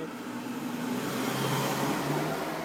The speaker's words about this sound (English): Well, we have more cars coming up.